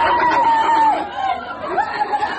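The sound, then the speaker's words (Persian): Mourners wail at the home of an executed citizen in Iran, a high, wavering voice crying in long drawn-out tones while other voices murmur beneath. “صدای شیون در خانه یک شهروند اعدام شده دیگر در ایران که در شبکه‌های اجتماعی دست به دست می‌شود.”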